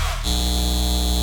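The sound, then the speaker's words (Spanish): A data centre hums with a steady electrical drone that sets in abruptly and holds at an even level, a bright, buzzing tone with strong harmonics. “Este es el sonido de un centro de datos llevándose el agua de nuestra comunidad y aumentando nuestras facturas de servicios públicos.”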